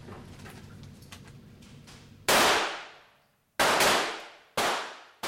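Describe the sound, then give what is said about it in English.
Gunshots at an indoor firing range: three loud, sharp reports, each trailing off in a long ringing decay, with a fourth shot just starting at the end. “Ready on the right? Ready. Ready on the left? Ready. Commence firing.”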